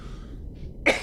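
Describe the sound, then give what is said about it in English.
One short, harsh cough bursts out near the end after a quiet, faintly hissing stretch. “excuse me, you just have to put up with my coughing.”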